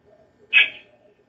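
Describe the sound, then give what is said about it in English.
A single short, high bird chirp rings out alone, bright and clear, then fades quickly over a faint low background. “I hear the birdie already.”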